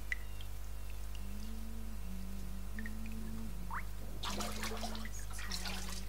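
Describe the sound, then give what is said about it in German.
Hot, foamy bath water in a bathtub: faint soft drips and trickles, then a short burst of splashing near the end, over a low steady hum and a quiet held tone. “Zu Hause legte sich Nancy in die Badewanne, hielt die Augen geschlossen und hoffte, das heiße, schaumige Wasser würde all ihren Kummer fortspülen. Es war angenehm, in der Wanne zu liegen.”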